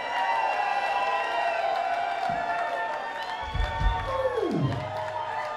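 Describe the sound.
An audience cheers and applauds for a performer being introduced on stage. A sustained wash of crowd noise carries high whoops and shouts that hold at a steady level throughout.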